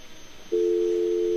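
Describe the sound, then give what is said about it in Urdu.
A steady telephone tone after a call-in caller's line drops: a continuous mid-pitched hum that starts abruptly and holds level over faint line hiss, with no talk. “Okay, ان کی line drop ہو گئی.”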